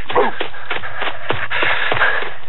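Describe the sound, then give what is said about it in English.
People sprint on foot, their rapid footsteps landing in a quick, regular rhythm of many loud, scuffing thuds over a constant background hiss. “Okay, about 4 more blocks and we're home. Time to sprint.”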